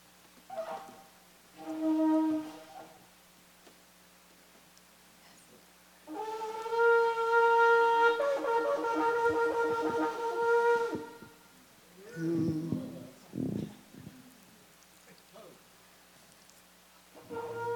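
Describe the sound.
Shofar blown by a learner sounding out a name: a short brassy blast, then after a pause a long sustained wavering tone, followed by a few brief bursts with voices.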